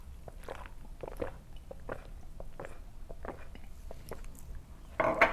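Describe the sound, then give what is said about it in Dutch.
Someone drinking, right after rinsing their mouth: many faint, rhythmic gulps and wet mouth sounds, with a louder slurping burst at the end. “Nu, eh, nu ga ik gewoon drinken.”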